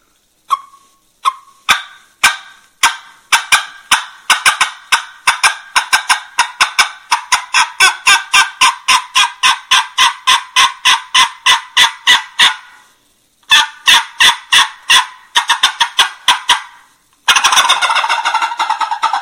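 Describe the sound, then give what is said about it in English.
A turkey tube call blown to cut and yelp gives long runs of many sharp, raspy, rapid notes. A brief pause breaks the runs, the notes come in quickening bursts, and it ends in a loud, harsh, sustained rasp. “I'm just kind of blowing into the tube call and making the sound. I'm going to cut a little bit and yelp.”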